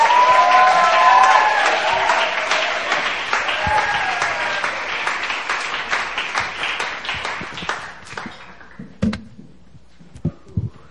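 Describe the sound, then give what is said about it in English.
Audience applause welcomes a speaker at a joint prayer meeting: dense, loud clapping runs for about eight seconds, then thins out into a few scattered claps. “Let's welcome up, put our hands together for Sono Park.”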